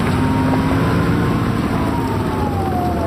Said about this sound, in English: Specialist David Nanning of Bethel says it's his job to pick them up in a specialized vehicle called a SUSV.